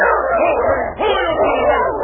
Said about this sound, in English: Who owns that dog? Throw him off or I'll shoot.